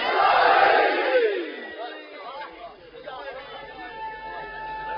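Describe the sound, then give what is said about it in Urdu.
A crowd raising both hands shouts the slogan Naara-e-Haidari, a loud massed cry in the first second and a half that quickly trails off, after which a single voice carries on speaking. “ان سے گزارش ہے دونوں ہاتھ بلند کر کے نعرہ حیدری.”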